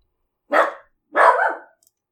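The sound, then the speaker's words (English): Two loud barks from a dog upset by fireworks being set off outside, each a short harsh burst separated by a brief pause, with no talk around them. “I don't know what's going on out there. Someone's setting off fireworks. My dog doesn't like it one bit.”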